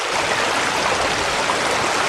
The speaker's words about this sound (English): Imagine you're on the banks of a raging river.